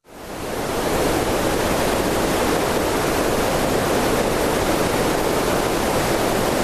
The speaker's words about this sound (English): And then there's green noise.